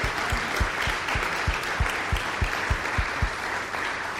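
An audience applauds to welcome the mayor of Cedar Rapids at a morning event. The clapping is dense and sustained at an even loudness throughout, with some single louder claps standing out.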